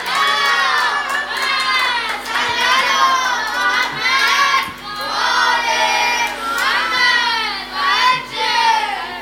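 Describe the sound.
A crowd chants salawat, a blessing on the Prophet, at a religious gathering during a eulogist's poem. A few loud unison phrases follow one after another, each swelling and then easing.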